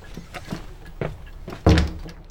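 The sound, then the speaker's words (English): A man trips over a boot scraper and falls. A few light scuffing knocks come first, then a single loud, heavy thud near the end that quickly dies away. “Dreadful man. He's fallen over the scraper.”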